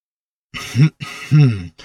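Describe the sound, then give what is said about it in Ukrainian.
A voice imitates a long, pompous firework rocket tied to a stick coughing before it speaks: two loud, rough throat-clearing coughs, the second longer, followed by the start of another sound. “Ракета завжди покашлювала, перш ніж заговорити, так вона привертала до себе увагу.”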